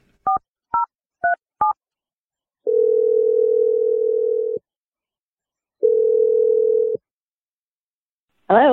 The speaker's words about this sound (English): I'm dialing the number right now.